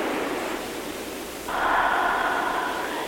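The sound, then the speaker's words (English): Slow breathing during a guided breathing exercise: a long, soft, airy breath followed by a stronger, steadier exhale that swells midway and then sustains. “And just begin the breath.”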